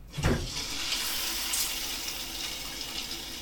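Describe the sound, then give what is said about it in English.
A shower starts running in a bathroom, opening with a short low gush, then settling into a steady, even hiss of spraying water with no voices. “It's morning, and I've just woken up. Like many of you, I fumble into the bathroom and I start the shower.”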